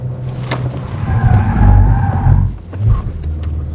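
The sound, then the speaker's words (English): A car's tyres squeal as it spins around from reverse to face the other way, shifting through neutral into drive and back on the power. A steady low engine rumble runs throughout, with one drawn-out skid squeal in the middle. “As the front comes round, we then want to be selecting neutral from reverse and then get it into drive as we get straightened up going the other way, back on the power and off.”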